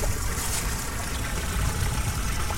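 Liquid trickling from a sewer drain pipe, a steady, even rush and splash that runs unbroken throughout.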